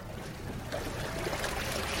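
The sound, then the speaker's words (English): Churning water and a broad, steady rush come from a rickety one-vehicle car ferry crossing the deserted Curuá River in the Brazilian Amazon. The noise is continuous, with no voices. “we cross the deserted Curuá River on a rickety car ferry that carries just one vehicle.”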